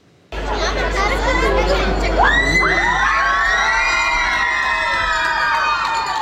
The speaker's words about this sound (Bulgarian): Шампионско посрещане за световната шампионка Стиляна Николова. Стотици очакваха нейното посрещане